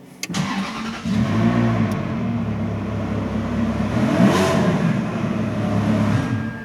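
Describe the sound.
A collector car's engine is started, cranking briefly before catching into a steady, loud idle, with a couple of short revs rising above the running note.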